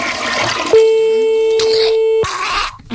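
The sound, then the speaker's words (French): Ringback tone of a call to a mobile phone: a single steady, mid-pitched tone lasting about one and a half seconds, with other noises before and after it. “C'est le portable. Fais pas la tête, décroche.”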